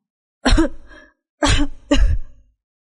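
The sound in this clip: Three harsh coughs from a man being choked by the throat: one long burst, then a pause, then two quick bursts close together, loud and alone.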